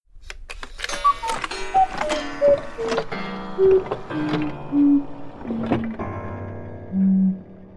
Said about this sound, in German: Oh, was ist denn das? Eine Uhr? Ja, da ist sie.